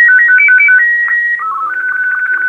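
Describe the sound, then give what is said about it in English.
A phone ringtone plays loud, clean electronic notes alone. Quick hopping tones give way to a longer held note, then the melody steps lower and settles into a steady warbling tone. “I'm pretty sure this is the tone that everyone heard in the Stephen King book Cell.”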